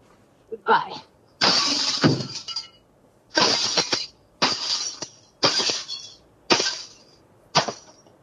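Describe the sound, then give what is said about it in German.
Something is smashed to pieces with a baseball bat in a series of harsh crashing, shattering impacts. One long burst is followed by several shorter, forceful blows at uneven intervals. “Ich habe meinen Baseballschläger unter meinem Bett rausgeholt. Jetzt muss es dran glauben.”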